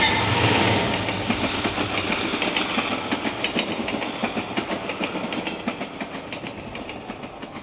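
Train passing with a rhythmic clickety-clack of wheels over the rails above a broad rolling rumble, the clatter repeating steadily while the overall loudness eases slightly.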